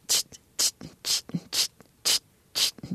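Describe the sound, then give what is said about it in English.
A voice imitates a simple eighth-note funk drumbeat: six sharp hissing hi-hat-like bursts at a steady pulse, with softer low thumps and clicks falling between them. “Can you speak the drumbeat? Oh, I've never tried to do this before. But just a simple sort of eighth note funk drumbeat, like—”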